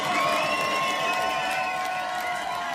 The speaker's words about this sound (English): Make some noise for yourself, ladies and gentlemen.